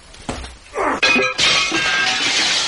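Window glass shatters as someone is thrown through it: a dull thump, then a loud crash of breaking panes followed by a long spill of tinkling, scattering shards.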